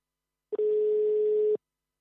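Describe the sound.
A telephone dial tone plays while a dropped caller is being redialed: a short blip, then one steady, even mid-pitched tone held for about a second before it cuts off cleanly.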